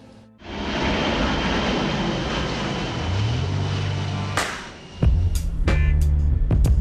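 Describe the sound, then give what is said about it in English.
An airplane's engine drones at Brownsville Airport in Texas, a steady, loud, throbbing hum that carries on throughout, with a low tonal note joining partway through. “So we're here in Texas at the Brownsville Airport, just a few miles from the Mexican border and the city of Matamoros.”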